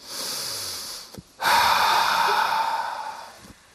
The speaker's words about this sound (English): I want us all to breathe them out in a big exhale.